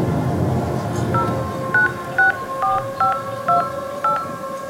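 Telephone keypad dialing tones ring out as a quick series of short, evenly spaced electronic beeps over a faint low hiss, with no voices.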